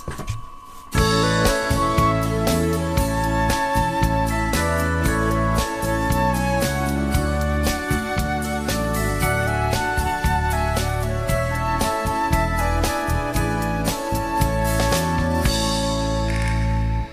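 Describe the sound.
A band's song plays on the radio. It kicks in abruptly after about a second and then runs at a full, steady level with a driving rhythm and dense instrumentation to the end.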